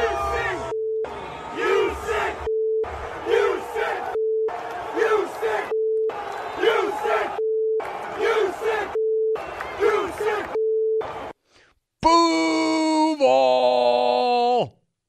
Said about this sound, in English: at least Jaguar fans welcomed him back for his preseason debut in the friendliest of fashion.